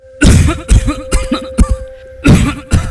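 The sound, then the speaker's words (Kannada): Deep, chesty coughing from a man, a run of several harsh bursts separated by short pauses, loud and alone over a faint steady hum. “ಏನೇ ಆಳದ ಕೆಮ್ಮು ನಿಲ್ತಾನೆ ಇಲ್ವಲ್ಲಪ್ಪ? ಯಾಕೆ ಸಿದ್ದಣ್ಣ ಇಷ್ಟೊಂದು ಕೆಮ್ತಿದ್ದೀರಾ?”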